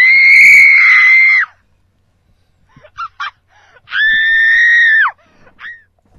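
A recorded woman screams in two long, loud, high-pitched wails, each over a second. Short sharp yelps come between the wails and after them.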